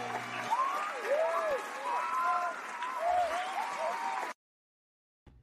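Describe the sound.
Applause and cheering from a crowd welcoming a show host: a steady wash of clapping with rising and falling whoops, which cuts off abruptly before the end.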